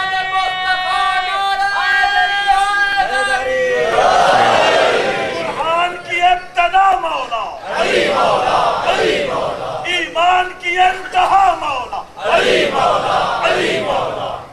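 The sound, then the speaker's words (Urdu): A crowd at a political rally chants a slogan. One drawn-out voice calls first, then massed voices answer in loud, repeated rhythmic bursts with short gaps between them. “نہیں، یہ تو نعرہ اظہار کر رہا ہے کہ کل سے جلسہ سننے والے تھکے ہوئے ہیں.”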